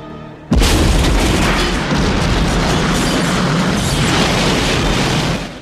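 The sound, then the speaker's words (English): An explosion: a ball of fire bursts inside a building as a truck approaches the gates. One sudden loud blast swells into a dense, steady roar for about five seconds, then cuts off. “A ball of fire explodes in the building as the truck approaches the gates. Frank detonates a second explosion as the boys go through.”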